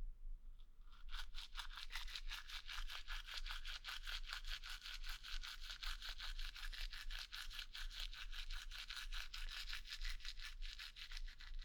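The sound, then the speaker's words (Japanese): A toothbrush scrubs teeth in quick, steady back-and-forth strokes, many soft rasping strokes in an even rhythm, faint and alone without voices. “歯の裏もね。歯ブラシを縦に向けて。”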